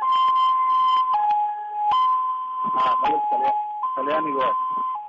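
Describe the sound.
An ambulance siren wails in a steady two-tone pattern, a loud mid-high pitch alternating between two notes every second or so, while people talk over it.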